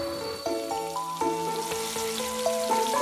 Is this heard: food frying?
yes